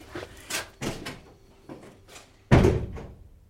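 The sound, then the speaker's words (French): A door opens and closes as someone leaves home carrying a suitcase. A few soft knocks and clicks come first, then one loud, heavy thud near the end. “Là, par exemple, je vais passer cette porte et partir.”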